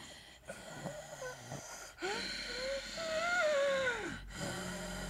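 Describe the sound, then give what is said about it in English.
A voice imitates heavy, audible breathing: a few drawn-out, wheezy breaths with a whistling tone that rises and falls, fairly faint and separated by brief pauses. “I hate an audible breathe. I cannot tell you how weird and disturbing it is when you're standing in an elevator with someone and you just hear...”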